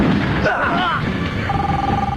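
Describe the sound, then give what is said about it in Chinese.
A mobile phone rings on a dead gangster's body in a film scene, its steady electronic tone coming in partway through, under voices and dense background sound. “鲍勃从一个被打死的匪徒身上找到了一个正在响着的手机，出于好奇他接听了。”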